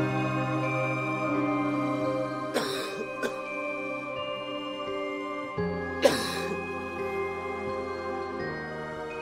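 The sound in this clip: Dry coughing from a smoker holding a cigarette in a dark room: a couple of harsh, widely spaced coughs with a smaller catch between them, over a steady sustained tonal background.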